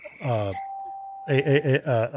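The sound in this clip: A single sustained ding from an answer bell, the kind pressed to answer a question, holds one steady pitch for under a second, with people talking just before and after it.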